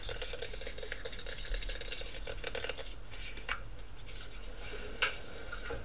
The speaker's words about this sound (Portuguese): Ele agora está a mexer numa, numa garrafa de espuma. Está a fazer assim com os dedos.